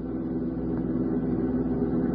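A low, steady engine rumble from an old jalopy car driving along a road, an even drone throughout with no voices.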